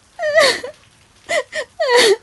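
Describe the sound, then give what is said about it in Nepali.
A woman crying with high wailing sobs in a few drawn-out bursts separated by short gaps, her voice wavering and sliding in pitch. “भाउजू के भयो किन रुनु भएको”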